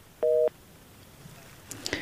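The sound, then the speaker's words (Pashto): Telephone tone after a radio caller's line cut off: one short, steady beep lasting about a quarter second, then faint scattered clicks and soft noise. “متاسفانه شنونده دیگه ما هم تماسشان قطع شد.”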